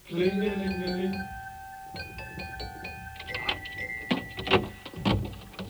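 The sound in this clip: A doorbell rings at a front door, several bright, steady ringing tones sounding in a row, followed by softer clatter and rustling.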